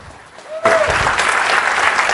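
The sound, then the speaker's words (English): Audience applause at a C++ programming conference as a speaker is welcomed: dense, sustained clapping breaks out abruptly after a quieter moment and stays loud and even to the end. “Please, a big warm applause for Andre Alexandrescu.”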